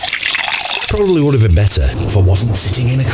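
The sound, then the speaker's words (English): A drink is poured at a backyard barbecue, with liquid splashing and trickling into a glass beneath continuous male speech. “Oh, I think it's time for a nice drink,”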